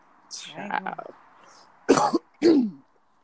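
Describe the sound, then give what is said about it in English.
Throat clearing in two short, harsh bursts after a quieter voiced sound, each burst loud and abrupt with a brief gap between them. “Excuse me. That was not sexy. That was me. That's from clearing my throat.”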